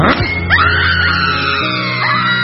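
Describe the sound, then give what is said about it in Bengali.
A woman screams in pain, her cry mixed with weeping. The wailing is loud, sustained and strained, with its pitch wavering and bending throughout. “আকাশ ফাটিয়ে আর্তনাদ করে ওঠে গঙ্গা, চিৎকারের সঙ্গে কান্না মিশে যায়।”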